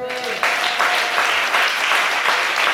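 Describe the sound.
A church audience at a retreat applauds and cheers for Jesus, with dense, steady clapping throughout and voices mixed into the noise.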